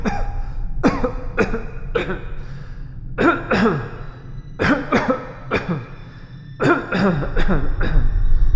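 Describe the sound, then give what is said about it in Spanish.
A prolonged, violent coughing fit: harsh, forceful coughs come in repeated clustered bursts across the whole clip, with brief breathy gaps between the rough barks. “simultáneamente fue víctima de un paroxismo de prolongada y violenta tos.”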